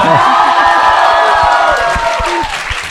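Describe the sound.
An audience greets five hosts at a New Year comedy show with loud cheering, clapping and whoops, a dense, energetic roar that stays strong for a few seconds before easing slightly at the end.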